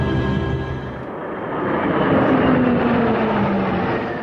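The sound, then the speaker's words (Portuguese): Seven aerobatic airplanes roar overhead as they perform stunts at a September 7 parade in Brasília. The loud, steady engine noise swells in the middle, and a tone falls slowly as they pass. “Este é o som que você ouve e vem de 7 aeronaves que fazem acrobacias no céu.”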